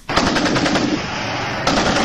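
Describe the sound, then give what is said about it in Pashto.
Heavy-weapons automatic gunfire from border fighting in Kurram on the Pakistan-Afghan frontier: loud, rapid, evenly spaced bursts of shots, nearly continuous, with a brief dip before another burst resumes near the end. “د غټ وسلو دا ډزې په کورمه کې پر پاک افغان پوله د دوپرزیو او بنګخو له طالبانو سره یو ځل بیا د شروع شوې جګړې دي.”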